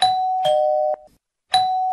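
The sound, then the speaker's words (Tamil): An electronic doorbell is pressed at a house door, giving a clear two-note ding-dong chime that cuts off, falls silent briefly, then starts ringing again. No voices. “போய் calling bell அமுக்குவோம்.”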